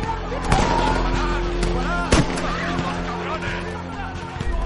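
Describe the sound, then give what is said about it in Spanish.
Police gunfire during night riots with burning cars: a few sharp, bright cracks ring out above a dense layer of voices and crowd noise. “De noche, coches incendiados, jóvenes que huyen y policías que disparan.”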